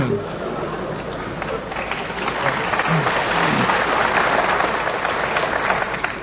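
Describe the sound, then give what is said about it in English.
An audience applauds after a point in a mathematics lecture, a dense, steady wash of clapping that holds for several seconds and swells slightly midway. “that sort of applause reminds me of the fact that in Indiana everybody applauds ballet dancers that do six pirouettes”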